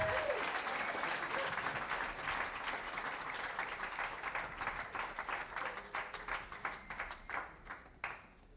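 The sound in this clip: An audience applauds a cellist after a live performance. The many hands make a dense, steady wash of clapping that gradually thins and fades toward the end.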